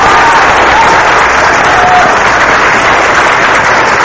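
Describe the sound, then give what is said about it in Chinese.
Congregation applause at a church service: dense, steady clapping from many hands fills the whole clip at a loud, even level without pause. “我们大家鼓掌哈！”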